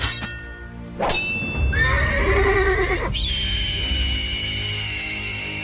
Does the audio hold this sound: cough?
no